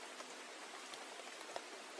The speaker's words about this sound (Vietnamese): Trời đang sáng sủa bỗng nhiên mưa tầm tã thế này.